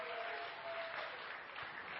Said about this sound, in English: Can we just give a hand for all our first-time guests?